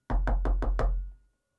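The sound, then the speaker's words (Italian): Five even, evenly spaced knocks on a door, each a firm hollow thud with a bright edge, followed by a short fading resonance and then silence. “Bussano?”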